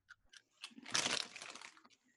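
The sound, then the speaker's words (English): Quiet crunching of pretzels eaten with peanut butter: a few light crackly clicks, then a dense, brittle crunch lasting about a second that thins into small crackles. “I'm having some Trader Joe's pretzels with peanut butter. They're delicious.”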